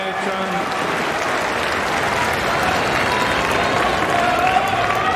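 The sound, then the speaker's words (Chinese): Applause from the crowd at a tennis match fills the whole clip as a dense, even, loud wash of clapping, with a commentator's voice running over it. “佩雷里巴也是在鼓掌给郑钦文的加油啊！”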